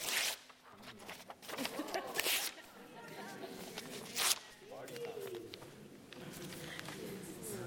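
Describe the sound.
Paper being torn up in a few sharp ripping bursts, each a brief, loud, crackling tear separated by quieter rustling.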